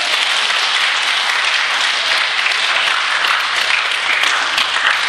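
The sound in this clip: Dense audience applause at a Buddhist teaching on consciousness-only doctrine, a loud, steady wash of many hands clapping that holds evenly for the whole stretch with no voices over it.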